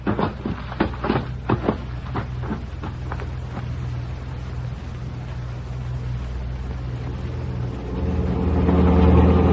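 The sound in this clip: A car drives off: several sharp clicks and knocks come first, then an engine hum builds and grows louder toward the end.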